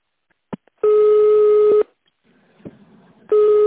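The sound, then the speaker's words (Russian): Telephone ringback tone on an outgoing call to a company extension: a click, then two long, steady, buzzing tones separated by a pause, the second cut off at the end. “Наберите внутренний номер сотрудника.”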